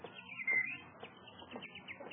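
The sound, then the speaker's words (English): Bird chirping on a lawn on a sunny day, with a few quick, thin tweets and calls in a faint, irregular sequence. “look at that beautiful bird on your lawn”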